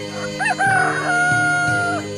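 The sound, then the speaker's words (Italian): A rooster crows once, a long, strained call with a rising start that holds steady and then trails off, heard clearly on its own. “gli si avvicinò un gallo”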